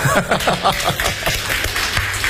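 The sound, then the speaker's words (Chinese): Sparse, scattered applause from an audience: a handful of uneven claps patter briefly at moderate volume. “谢谢你们稀稀拉拉的掌声，谢谢。”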